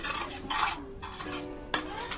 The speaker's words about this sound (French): Je ferme encore ma marmite. J'attends, la marmite mijote.